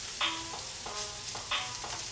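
Frozen plant-based meat frying in a pan gives a faint, steady sizzling hiss, broken by a few brief scraping or stirring touches.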